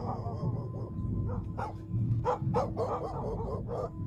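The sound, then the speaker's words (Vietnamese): A white dog barks while running alongside a bicycle. Several short, sharp barks come in uneven bursts, fairly faint over a steady low rumble. “Con chó trắng từ nãy đến giờ nó cứ chạy song song theo xe mình, nó sủa kia kìa.”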